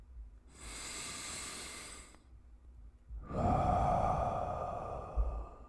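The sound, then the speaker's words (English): A deep breath taken during a guided meditation: a long, airy, hissing breath, then after a brief pause a second, louder and fuller breath, with no talk over them. “and I take a deep breath in”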